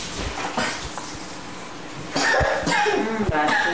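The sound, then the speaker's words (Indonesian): Coughing from a sick person: a few sharp, rough coughs in short bursts, with voices alongside. “Batuk.”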